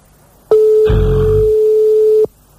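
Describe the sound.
A telephone line tone sounds while a call is placed, a single steady, pure ringing tone that starts abruptly, holds unchanged for nearly two seconds and then cuts off cleanly.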